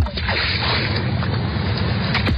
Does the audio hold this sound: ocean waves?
yes